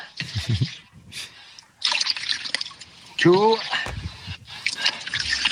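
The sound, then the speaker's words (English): Comfrey juice is poured from a beaker into a full watering can, giving intermittent trickling and dripping splashes that come in short bursts, with brief voices mixed in between. “Now into that watering can, I got to put 3 cups of comfrey juice.”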